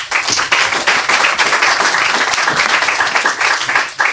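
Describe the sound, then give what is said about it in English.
Audience applause for a young author at a children's story reading: loud, dense clapping that runs steadily through the whole stretch, with a brief dip near the end. “Make some noise for our next author, Niall O'Connor.”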